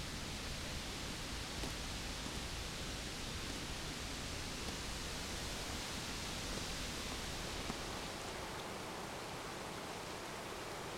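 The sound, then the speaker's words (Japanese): A clear mountain stream in Kyushu, fed by water from Aso, rushes steadily as an even, unbroken hiss of flowing water. It is soft and constant throughout, with no talk. “あそこから沢に降りれます。清流の音が心地よいので、あの辺りで少し、お話ししませんか？”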